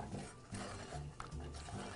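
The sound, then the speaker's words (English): An egg being mixed by hand into a cooked batter of flour, milk and butter: faint, repeated soft scraping and stirring strokes with occasional light clinks from the utensil. “so now that we have our flour, milk, and butter cooked, I'm just going to go ahead and I'm going to add one egg. And I'm just going to mix this in.”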